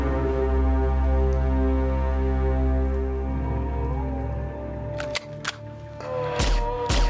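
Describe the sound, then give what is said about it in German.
Gunfire effect in a German radio drama: a few sharp cracking bursts near the end, after a long, low droning hum. “Gabriel hatte sie alle getötet. Schießen, schießen. Die Waffe nachladen, dem Angriff von hinten ausweichen,”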